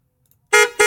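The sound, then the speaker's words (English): Car horn beeping twice as a sound effect: two short, loud, bright blasts in close succession, the second slightly shorter, after a moment of silence. “That's a really long beep. Took like forever for the beep beep there, didn't it?”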